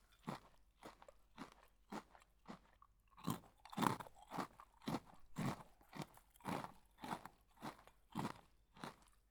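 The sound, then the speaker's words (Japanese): An animal eats dry pet food bought at a convenience store, crunching it eagerly. Many sharp, quiet crunches come in a steady, uneven chewing rhythm. “いい食べっぷり。やっぱりお腹空いてたんだね。まだあるからちゃんと食べ。”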